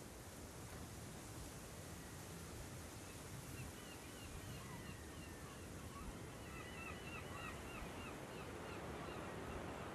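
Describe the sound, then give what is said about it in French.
Soft, steady wash of surf on a beach in the bay of Douarnenez, a faint, even hiss of waves with light wind and scattered high bird calls drifting through the background. “Alors Clotilde dit qu'on se retrouve là, sur la plage en baie de Douarnenez. C'est un endroit magique entre terre et mer”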